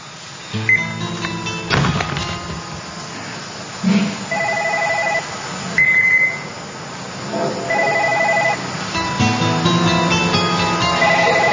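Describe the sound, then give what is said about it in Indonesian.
A telephone ringing in several repeated electronic bursts separated by short pauses, loud against a busy background of other sounds. “gak usah diangkat telepon itu”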